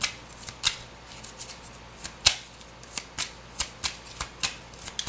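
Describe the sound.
Tarot cards are shuffled by hand, giving many crisp, papery riffs and snaps in an irregular rhythm, fairly faint, with no one talking.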